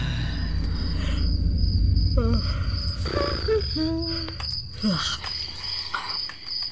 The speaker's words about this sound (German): Sag mal, kannst du das Zirpe nicht abstellen? Wenn man den Knopf zum Ausschalten zeigst.